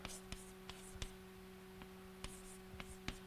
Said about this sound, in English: Okay, so we draw pictures like this.